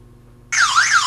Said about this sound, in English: There's my panic alarm. So I'll turn that off.